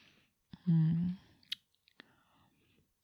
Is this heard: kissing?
yes